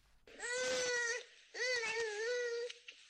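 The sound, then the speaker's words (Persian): A young child cries in a village in Herat, Afghanistan: two long, loud, high wailing sobs separated by a short breath, then a small whimper at the end. “این صدای گریه کودکی است در یکی از روستاهای هرات.”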